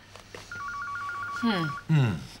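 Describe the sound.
A telephone rings with a rapid, warbling electronic trill, one burst lasting just over a second at moderate loudness, and voices speak over the end of it.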